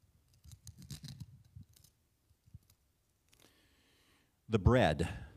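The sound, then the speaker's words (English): Clear plastic wrapping being peeled back from communion packs during a church service, with irregular soft crackles and scratches coming in scattered bursts. “Go ahead and peel back the plastic, the clear plastic.”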